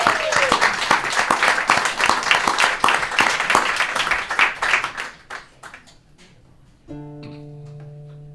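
An audience applauds to welcome a singer, with lively, dense clapping that thins and fades out after about six seconds. A sustained tonal sound then begins.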